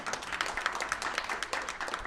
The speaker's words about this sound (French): Vous pouvez applaudir, vous ne retenez pas.